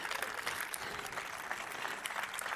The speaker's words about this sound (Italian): Vi chiedo un applauso a questi ragazzi meravigliosi che sono alle nostre spalle